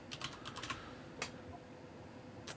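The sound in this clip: Keys tapping on a computer keyboard while a wig color is looked up: a few scattered, faint clicks with gaps between them and a last tap at the end.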